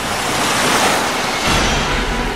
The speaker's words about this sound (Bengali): সাগরের ঢেউয়ের মতো প্রকাণ্ড ঢেউ একেবারে খড়কুটোর মতো তাকে উড়িয়ে এনে পাড়ে ফেলল